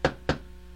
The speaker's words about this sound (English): there's a knock at the door.